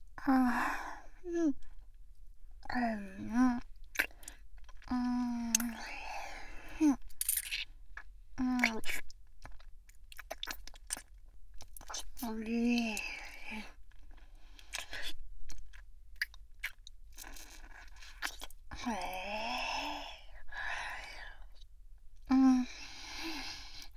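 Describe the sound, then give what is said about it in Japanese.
Someone eats ice cream with soft, intermittent chewing and mouth sounds, broken by breathy sighs and short voiced murmurs between quiet pauses. “ちょっと待っててね。アイス食べきっちゃうから。”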